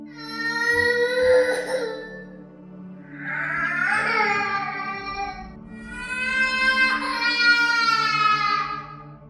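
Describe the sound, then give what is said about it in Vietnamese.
A young child cries outside an inn at night in three long, loud wailing bursts, sobbing and tonal, with short pauses between them. “Chỉ nghe thấy phía bên ngoài dường như có tiếng trẻ con khóc.”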